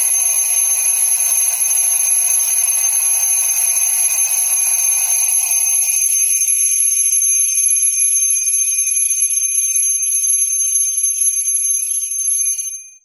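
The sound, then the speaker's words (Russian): An alarm clock rings in one long, continuous, shrill, high-pitched tone, loud and unbroken for about thirteen seconds before cutting off at the end. No voices. “Будильник взорвался. Резкий, пронзительный, безжалостный звук вырвал из объятий Морфея”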